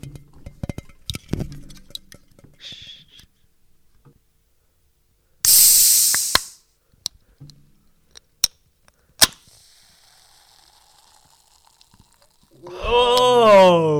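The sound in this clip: A can of Pepsi is cracked open: a sharp click and a loud fizzing hiss lasting under a second, followed by a few sharp clicks and taps in an otherwise quiet stretch.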